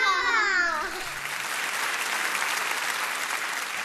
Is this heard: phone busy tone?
no